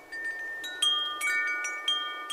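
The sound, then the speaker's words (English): Wind chimes hanging from a home in a residential neighborhood ring in a gentle wind: many bright metallic tones struck at irregular moments, each note lingering and overlapping the others above a steady soft hiss. “A gentle wind sings through wind chimes hanging from a home on Woodbury Avenue in Kalamazoo's Northside neighborhood.”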